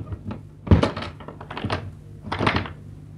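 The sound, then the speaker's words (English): A hotel suite door is being locked, with a solid thunk followed by a few lighter knocks and clicks of the lock and handle. “Then he locked the door,”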